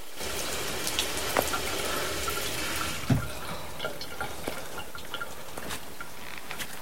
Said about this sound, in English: a tap is running in the sink. He turns it off.